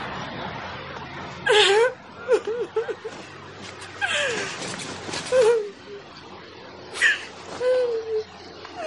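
A woman crying on a bed lets out several wavering, high-pitched sobs and whimpers, broken by breathy gasps and short pauses.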